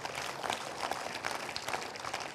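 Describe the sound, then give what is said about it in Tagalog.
A church audience applauds during a sermon, with many hands clapping in a steady, moderately loud patter that holds evenly throughout. “Palakpakan niya po natin si Lord.”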